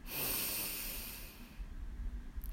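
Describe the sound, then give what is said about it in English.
A deep breath drawn in during a guided breathing exercise: a steady, airy hiss that holds for about a second and a half, then fades to near quiet. “Let's take another breath. Breathe in”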